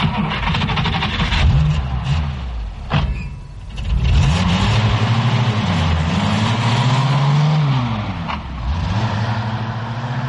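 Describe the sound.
A car engine revs and accelerates loudly and continuously, its pitch climbing and shifting as the throttle opens, with a brief dip before it surges again.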